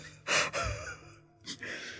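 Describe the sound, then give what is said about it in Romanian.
A person deliberately performs a smiling yawn: a breathy intake swells into a drawn-out, slightly voiced exhale, then a second shorter breath follows. Quiet and brief, with no words. “Eu vreau să încerc astăzi căscatul zâmbit.”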